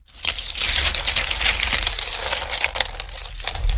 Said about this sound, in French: Galets, plumes, coquillages. Bulle et Bob reviennent au château et vident leurs trouvailles.